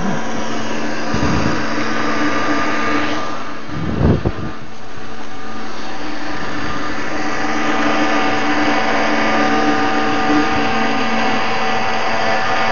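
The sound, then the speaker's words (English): A machine grinds lightly roasted sesame seeds into paste for tahini, a steady, loud whirring drone that runs without a break through the whole clip, with one brief surge partway through and no voices. “We lightly roast the sesame seeds and we grind them up like this.”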